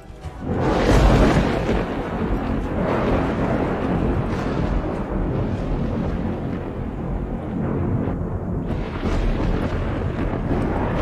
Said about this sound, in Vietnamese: Âm thanh ầm ầm như động đất, hòa lẫn với tiếng sấm, càng tăng thêm sự tức giận của thiên lôi.